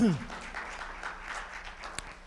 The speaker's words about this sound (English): Would you give them a hand clap, those who are watching?